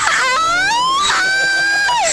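A person screams while riding a zipline, letting out a few drawn-out, high-pitched cries that climb in pitch; the last cry falls away.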